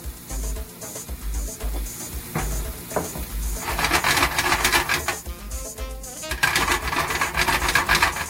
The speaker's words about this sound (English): See, now we got this rich and luscious salt. We got the sauce. We got the olive oil. We got the tomatoes starting to break down. It's flavored with the peppers and the garlic.